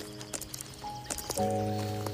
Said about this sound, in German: hörst du plötzlich Hufgetrappel in der Ferne.